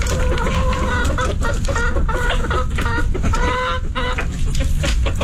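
Chickens cluck loudly in a henhouse, with many overlapping clucks and squawks forming a dense, continuous clamor from start to finish.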